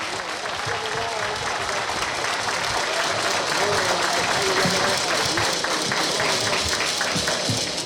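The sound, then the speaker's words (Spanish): Sustained audience applause for the municipal president at a civic ceremony in Guadalupe. The clapping is dense and steady throughout, with a voice faintly audible beneath it. “Fuerte el aplauso nuevamente para el licenciado José Saldívar”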